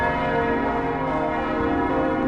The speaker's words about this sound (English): The bells tolled, marking Christ's arrival to the National Shrine Cathedral of Our Lady of Guadalupe, the last stop in the Diocese of Dallas.